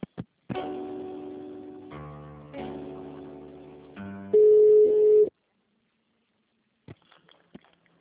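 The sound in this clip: Telephone line tones sound while a call is transferred: a run of sustained electronic tones that shift from one steady pitch to another, then a louder flat beep, followed by silence and a few faint clicks.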